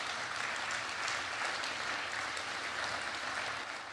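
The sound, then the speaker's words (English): Church audience applause, a steady wash of many hands clapping that stays faint and even for the whole stretch, with no talk over it. “not that that needs applause.”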